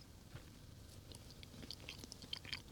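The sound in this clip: Quiet chewing of a snack made of black beans coated in pure cocoa: soft, continuous mouth sounds with a few crisp crunches near the end, and no talking.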